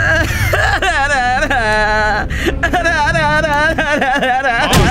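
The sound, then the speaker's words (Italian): A person whimpers and cries in wavering, high-pitched wails that bend up and down, over a dense, loud low rumble that continues throughout. “Basta, non piangere”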